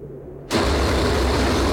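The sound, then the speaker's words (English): Tracked snowcat churning through powder snow in Antarctica, a loud rushing engine-and-tread roar that bursts in abruptly after a quiet half second and then continues steadily. “The cycling treads of the vehicle, a snowcat, rip steadily through the powder.”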